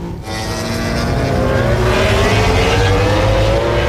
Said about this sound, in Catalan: Aquest és el so de MotoGP, el so del Gran Premi dels Països Baixos,